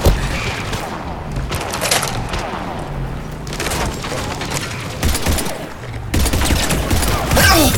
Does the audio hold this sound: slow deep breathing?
no